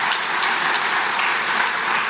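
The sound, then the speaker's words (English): Thin, steady applause from an audience at a public meeting, a continuous patter of many hands clapping at an even level with no voices over it. “Now, we have come, that is a very weak applause. Maybe it's coming from workers. It's coming from workers.”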